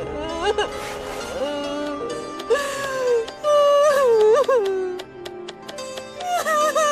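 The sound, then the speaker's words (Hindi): A girl cries in loud, high, wavering wails that rise and fall in long, drawn-out sobs, broken by brief catches of breath. “मेरी बच्ची रो क्यों रही हो?”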